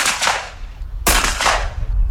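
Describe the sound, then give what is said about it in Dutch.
Shotguns fire at orange clay targets at a shooting event in Nieuw-Pekela with more than 100 shooters: two loud, sharp blasts, each with a long, rumbling tail that fades, and no voices. “Meer dan 100 schutters probeerden zoveel mogelijk oranje schijfjes uit de lucht te schieten.”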